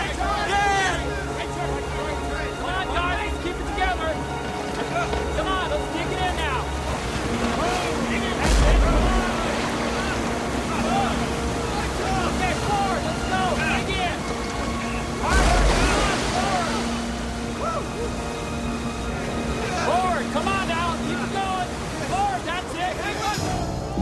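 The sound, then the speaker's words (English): A raft crashes through river rapids, with rushing, splashing water forming a constant broad roar while voices ring out over it, swelling in short louder surges of spray and churn. “The raft crashes through the rapids and a shower of frothy water falls onto them.”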